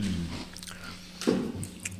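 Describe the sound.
Chewing on a caramel pretzel snack gives soft, moist crunching and biting, fairly quiet, with one crisper bite standing out midway.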